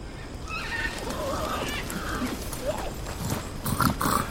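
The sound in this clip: Three horses carrying riders, hooves clip-clopping in an uneven patter with whinnying breaking through, the sounds growing busier and louder toward the end.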